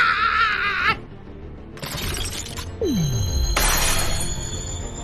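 Glass shatters in a cartoon scene: a bright, crashing burst of breaking glass, a descending swoop, then a second glittering crash of tinkling shards.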